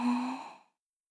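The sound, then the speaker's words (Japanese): A single slow breath out, a soft voiced sigh that fades away in under a second and leaves silence. “ゆっくり息を吐いて、吸って。”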